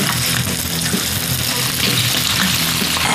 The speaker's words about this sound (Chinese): 家养土鸡宰杀切块，大锅热油，葱姜辣椒奏响冲锋的号角，花椒开始助威呐喊